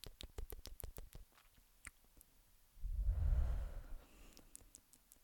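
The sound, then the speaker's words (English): Rapid tongue clicks snap in a quick run, followed by a soft, breathy exhale of smoke, and then another short burst of clicks; all are faint and quiet, with no talk. “Just take in your air, click your tongue, and when you're letting it out, make sure to click your tongue as well.”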